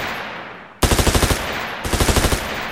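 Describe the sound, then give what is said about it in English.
Assault rifle gunfire in a video game: two loud bursts of rapid automatic fire, each a quick, even string of sharp cracks with a short pause between them. “Yeah, just give me the assault rifle.”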